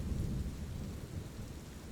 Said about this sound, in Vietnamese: Ngoài trời đang mưa to gió lớn, con lo cho tụi nó quá.